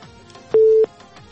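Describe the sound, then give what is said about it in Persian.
A telephone line connecting the next caller gives a single steady mid-pitched beep of about a third of a second, which stands out clearly above faint background hiss. “تماس بعدی رو وصل میسازم”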